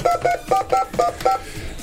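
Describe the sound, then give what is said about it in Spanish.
Six telephone keypad dialing tones, short and evenly spaced in a quick steady rhythm, followed by a brief quiet tail. “Bueno, vamos a intentar el otro, ¿eh? A ver si tenemos tono. Qué lío de tonos que tenemos.”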